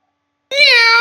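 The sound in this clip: A single cat meow from a video game: a clear, tonal call of about half a second that starts abruptly after silence.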